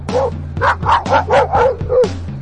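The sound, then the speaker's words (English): A big black dog barking in the road: a rapid series of deep, loud barks with short gaps between them, the dog alone. “There's a big black dog standing in the road right in front of me.”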